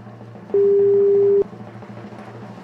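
A telephone call rings on the line as a single steady, loud electronic tone lasting about a second over a low background hum.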